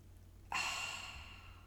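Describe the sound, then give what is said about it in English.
A person gasps for air while demonstrating nervous, shallow breathing: one sudden, breathy intake that trails off slowly. The sound is faint and stands alone, with no speech. “Or when you gasp for air and then even forget to breathe for some moments, like I do now.”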